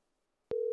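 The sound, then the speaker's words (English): Telephone line tone while a call is placed: a single steady, mid-pitched tone that starts abruptly after a brief silence and holds to the end. “We got to make a little phone call right now to the one and only.”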